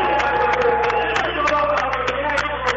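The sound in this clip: Arena fans applaud and cheer a National Guard swearing-in held between games, a steady dense roar of crowd noise with scattered sharp claps throughout.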